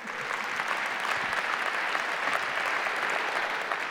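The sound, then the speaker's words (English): Church audience applauding during a service, a steady, dense wash of clapping that holds at an even level for the whole stretch, with no pauses and no clear voices. “You can keep clapping if you want.”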